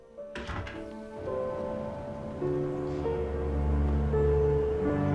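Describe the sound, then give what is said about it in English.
A door closes with a single dull, muffled thunk, followed by swelling sustained music. “She goes out and closes the door behind her.”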